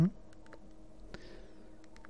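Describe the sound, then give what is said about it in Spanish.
A phone is tapped to set it to silent mode, giving faint taps and a few short electronic beeps. The sounds come as brief, quiet ticks scattered over a low background. “que estaba poniendo el teléfono en silencio”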